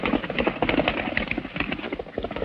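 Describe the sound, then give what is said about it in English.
Pony galloping at a wild racing pace, its hooves striking in a rapid, steady clip-clop rhythm that stays loud throughout. “Ahead, Ruby urges on her wildly racing pony.”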